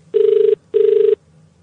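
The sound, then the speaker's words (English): A telephone ringing on an international call to Australia: two steady ring bursts of equal length separated by a short gap, loud and alone. “I'm phoning Australia.”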